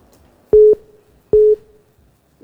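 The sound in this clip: A busy tone sounds after a dropped phone call: two steady, mid-pitched electronic beeps with silent gaps between them, and the start of another at the very end.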